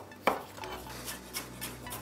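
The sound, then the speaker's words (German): A knife slicing apple or pear into evenly thick slices: one sharp clink near the start, then a few faint, soft knocks spaced apart, with no voices. “Ich nehme den Apfel oder die Birne und schneide mir da gleichmäßig dicke Scheiben runter.”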